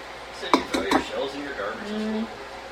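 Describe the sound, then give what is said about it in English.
An egg is dumped into a bowl while cooking, with a few sharp clinks against the bowl close together near the start, followed by softer handling noise and a brief voice. “Yep, now I'm dumping the other egg into the bowl.”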